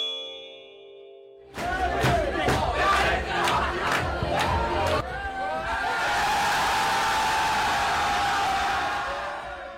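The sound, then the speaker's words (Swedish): Norwegian men's national football team celebrating in their locker room after a big win over Italy: a burst of loud rhythmic group shouts, then a sustained roar of cheering and yelling. “Ja, så lät det i det norska herrlandslagets omklädningsrum efter supervinsten mot Italien.”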